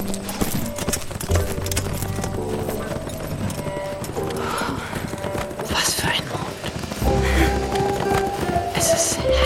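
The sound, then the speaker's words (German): Horse hooves clip-clop in a steady, continuous rhythm of many beats as a horse is ridden through the night. The hoofbeats stay fairly even in loudness throughout, with soft voices faintly mixed in. “Oh, da ist ja das Pferd.”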